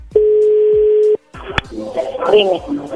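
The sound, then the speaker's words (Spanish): A telephone tone holds steady for about a second as a number is dialed again, then cuts off. A sharp click follows, then people talk over the line. “A ver, se está marcando de nuevo.”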